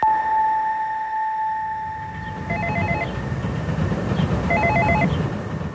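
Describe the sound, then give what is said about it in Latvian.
An apartment-building intercom calling a flat in a multi-storey block in Pļavnieki, Riga: a steady electronic tone fades out, then two short bursts of pulsing ring tones sound over a low background rumble. “Stāvam pie kāda daudzstāvu nama Pļauniekos un domofonā esam uzspieduši dzīvokļa numuru.”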